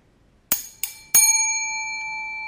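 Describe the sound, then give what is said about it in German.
A meditation bell is struck three times in quick succession during a meditation session. Each strike gives a bright, clear ring, and the last one sustains a long, steady shimmering tone. “Ich werde also entweder die Glocke oder ja, die Glocke ist da. Das ist die Glocke oder Gong.”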